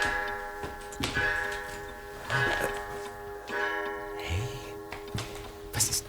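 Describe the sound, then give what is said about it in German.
A clock ticks slowly and steadily with crisp, evenly spaced ticks over a faint sustained tonal hum. “Meinst du die Uhr?”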